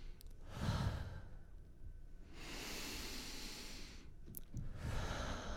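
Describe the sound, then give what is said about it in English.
Long, deep breaths drawn in and out slowly, soft and airy with a hissing texture. A few drawn-out breath sounds alternate with short quieter gaps, and no speech is heard. “So two is two long, deep breaths. So in.”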